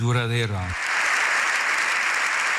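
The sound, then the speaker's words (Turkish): A standing ovation for Pope Leo XIV in the Spanish parliament: a brief voice at the start gives way to loud, dense, sustained applause from many people. “Silahla kalıcı barış tesis edilemez diyen Papa dakikalarca ayakta alkışlandı.”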